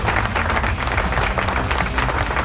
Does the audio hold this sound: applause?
yes

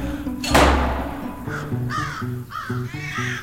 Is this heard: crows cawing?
yes

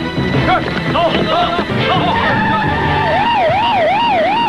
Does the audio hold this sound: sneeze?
no

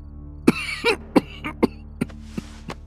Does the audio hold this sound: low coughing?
yes

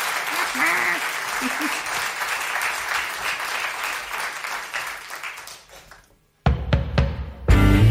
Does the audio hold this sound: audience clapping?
yes

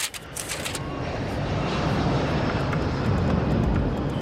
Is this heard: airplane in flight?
yes

